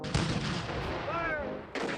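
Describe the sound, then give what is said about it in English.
Cannon fire in the Confederate bombardment of Fort Sumter, April 1861: a few heavy booms burst out over a continuous rumbling roar, with the last blast coming after a brief dip. “Fire! The Confederates fire on Fort Sumter on April 12th and 13th of 1861.”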